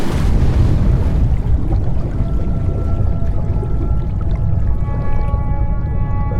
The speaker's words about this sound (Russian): Затем он подрывает дамбу вместе с собой, стоя на ней.